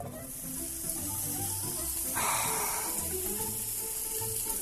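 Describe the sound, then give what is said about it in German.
Guanciale or bacon frying in a dry pan with no oil or butter, its fat melting. A faint, even sizzle and hiss runs throughout, with small crackles. “Der Guanciale oder Speck brät in der trockenen Pfanne. Das Fett schmilzt und nimmt den Geschmack des Fleisches und der Röstaromen auf.”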